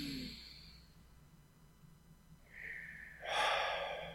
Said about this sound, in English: Breathe in.